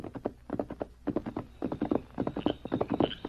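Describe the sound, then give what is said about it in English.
A horse's hooves clip-clop steadily as a rider travels at night toward a cabin. Many quick, even hoofbeats fall in a continuous rhythm, with no voices. “one night I was riding out to my place and was approaching Old Pete's cabin.”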